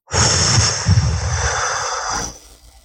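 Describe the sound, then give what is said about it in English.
A single deep breath drawn in: a loud, airy rush that holds steady for about two seconds and then trails off, with no talk. “Take a breath.”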